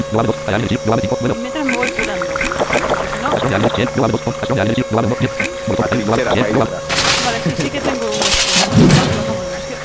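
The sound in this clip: Turret gunfire in a video game with rapid, sharp bursts of shots among dense game sounds, loud throughout and growing harsher near the end, with voices over it.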